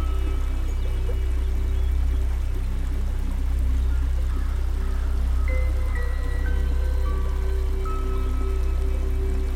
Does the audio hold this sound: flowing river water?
yes